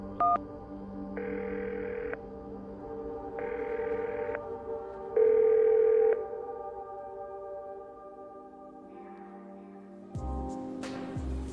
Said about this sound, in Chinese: 掏出硬币，一连塞了好几个，伸出哆嗦的手指拨打电话。